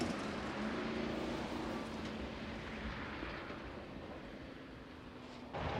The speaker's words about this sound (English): Two workmen are about to dig up the road when Earl and Valentine speed past them in the truck.